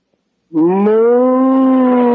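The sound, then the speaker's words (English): A cow gives a single long moo, one sustained low lowing call that starts abruptly, holds for well over a second and edges slightly upward in pitch, heard loud and alone. “moo. Hey, Gertrude's a cow. I'm in love with a cow.”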